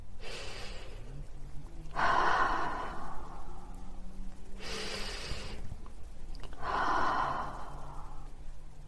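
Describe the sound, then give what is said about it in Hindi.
Deep breathing in through the nose and out through the mouth during a guided meditation: a few slow, airy breaths with soft rushing exhales, over a low, steady background drone. “अब आप गहरी सांस नाक से लें और मुंह से छोड़ें ऐसा आप पांच दफा करें”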